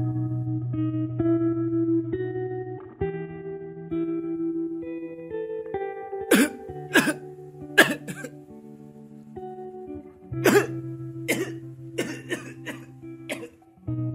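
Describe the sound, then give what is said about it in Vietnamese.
Weary, hoarse coughing from inside a thatched-roof house in the middle of rice fields: several sharp, echoing coughs in irregular bursts, mostly in the second half, over sustained low musical tones. “Những tiếng ho đầy mệt vọng ra từ bên trong căn nhà lá nằm hiu hắt giữa cánh đồng lúa”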